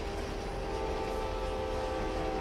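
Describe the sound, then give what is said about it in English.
A moving train roars steadily with the door left open, a dense, loud, unbroken rumble of wind and rail noise carrying a few sustained humming tones, with no voices. “it's also windy in here and very noisy. All right. Now the train is gone.”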